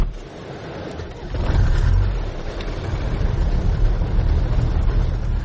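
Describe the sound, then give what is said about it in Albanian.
An old red car drives along, its engine a low rumbling hum that swells after about a second and then holds steady and fairly loud, with no talk. “Me veturën e ti të vjetër e të kuqe, Muhammed Sakiqi e bën shpesh rrugën drejt një prone të tij.”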